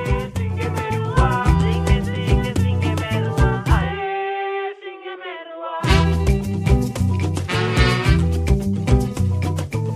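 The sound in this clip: Garifuna music from a women's ensemble album plays with a steady, busy drum pulse under layered guitar and melodic lines. The drums drop out for about two seconds, leaving sustained tones, then the full beat returns.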